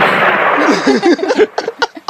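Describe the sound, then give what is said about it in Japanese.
Cannon fire in a video game: a loud, broad blast fills the opening moments, then tails off into uneven rumbling and several short, sharp pops. “あ、これ撃たれたってかどっちかというと大砲だよね。どっちかというとドーン。”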